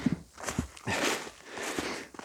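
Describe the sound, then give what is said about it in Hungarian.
Uneven, faint footsteps crunch on forest ground while someone walks out onto a small hill on a mountain, a few soft scuffing steps in a short burst. “De ha már annyira megneveztem ezt a dombocskát itt a hegyen, akkor ki is sétálok oda.”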